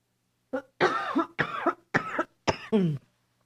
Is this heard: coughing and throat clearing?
yes